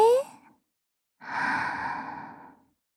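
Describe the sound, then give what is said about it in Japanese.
A single long, deep breath, a soft breathy rush lasting over a second and fading out, preceded by a brief trailing bit of a woman's voice. “一度深呼吸しましょうか。緊張をほぐすには深呼吸よ。さ、お姉ちゃんと一緒に。はい、吸って。”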